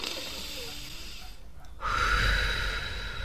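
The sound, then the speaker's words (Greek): Deep breathing during a relaxation exercise, a slow inhale through the nose and an exhale through the mouth. Soft airy rushing breaks for a brief pause, then returns as louder, fuller breath noise. “Εισπνοή βαθιά μύτη. Εκπνοή από το στόμα.”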